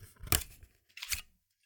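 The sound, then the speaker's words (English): Paper liner pulled out of a cassette tape case, giving two short papery scraping rustles separated by a brief pause, crisp and fairly quiet with no voices. “This is the liner coming out of the tape case. You'll know this sound.”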